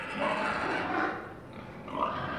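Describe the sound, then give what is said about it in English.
Pigs grunting at a university farm complex in Arkansas, eager for dinner: a dense, continuous mass of rough, low grunts at moderate loudness, with no talk over it. “The pigs at Arkansas State University's farm complex are eager for dinner time.”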